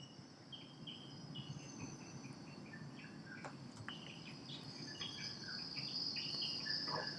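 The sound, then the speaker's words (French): Many kinds of insects buzz and trill together in a forest, a faint, dense, continuous layer of overlapping high drones with scattered short chirps, slowly growing a little louder toward the end. “Et chacun des enregistrements qu'on peut faire, moi je travaillais sur les sons des chimpanzés, sont complètement parasités par des bruits d'insectes en tout genre.”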